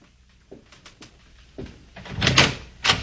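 A door to a room is opened: a few soft knocks or clicks, then louder latch and rattling sounds with a final sharp clack, and no talk.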